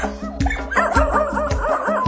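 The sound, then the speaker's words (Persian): Dogs bark in quick, repeated yips, a steady run of sharp barks at a fairly high pitch over a constant low background hum. “نه تا هاپو اومدن واقو واقو واق میکنن.”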